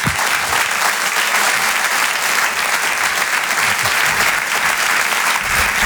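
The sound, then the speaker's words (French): Audience applause greeting a comedian as he arrives on stage: loud, dense, sustained clapping that holds an even level throughout. “merci pour votre accueil, merci pour vos applaudissements, ça me touche vraiment beaucoup”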